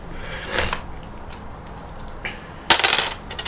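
Two six-sided dice rattle and clatter during a tabletop role-playing game: a brief clatter early on, then a sharper burst of rapid clicking toward the end, otherwise quiet.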